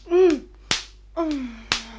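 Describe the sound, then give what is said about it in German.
Slaps to the face to bring an unconscious woman round: two sharp smacks, each following a falling moan from a voice, with a fainter crack between them. “Geben Sie ein paar Ohrfeigen, damit sie zu sich kommt.”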